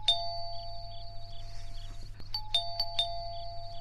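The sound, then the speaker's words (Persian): Doorbell rings at night, an electronic chime sounding repeatedly in clear, ringing tones over a low steady hum, with a longer gap before a quicker cluster of rings. “اه زنگ میزنن. کی هسته ای وقت شب؟”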